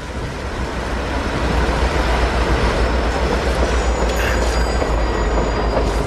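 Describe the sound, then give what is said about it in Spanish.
A night train passes nearby with a loud, steady roar of wheels on rails that holds evenly throughout, with no voices. “El tren nocturno pasa por aquí cerca.”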